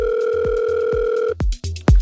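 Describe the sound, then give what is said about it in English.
A telephone call rings out: a steady two-toned ringback tone holds for over a second, then cuts off and a few clunky thumps follow. “So I thought we just might as well give him a ring. And see if you recognise who this guy is. Is he going to pick up or what? I think you might pick up now.”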